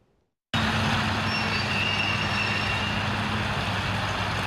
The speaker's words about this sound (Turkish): Kamyoneti dere kenarına çektiler.